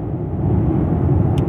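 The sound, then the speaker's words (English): Steady, low road rumble from inside a car driving down the road, a dense engine and tyre drone with no voices, holding an even level throughout. “I'm driving down the road, I gotta focus on the road”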